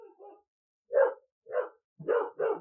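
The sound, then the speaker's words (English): A dog barks alone in a short run: a couple of faint, soft yaps first, then four louder, mid-pitched barks, the last two coming close together. “dogs. Just what I was thinking. Yes. Barking.”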